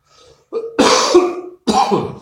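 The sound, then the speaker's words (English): A man coughs a few times during a talk, harsh, rough bursts that begin with a faint throaty rasp, followed by a long, loud hacking cough and then another strong one. “he says as he coughs”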